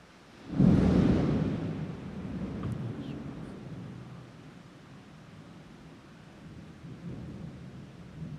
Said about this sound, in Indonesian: Apa doanya petir?